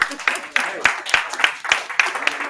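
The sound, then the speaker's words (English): Scattered, uneven hand claps from a small audience at a sustainable couture outerwear fashion show, with a few sharp claps standing out from lighter clapping, and voices heard alongside. “Let's give a warm round of applause.”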